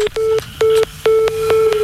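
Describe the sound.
Telephone tones sound as a number is dialled to call the fire brigade: a steady, low electronic tone broken into repeated segments, with sharp clicks between and within them.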